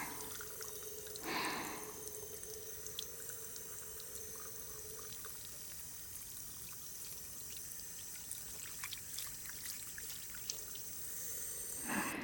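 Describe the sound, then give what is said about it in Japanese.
Running water rinses soap foam off in a faint, steady wash of hiss with a few soft drips and splashes throughout. “しっかり水で泡を洗い流して”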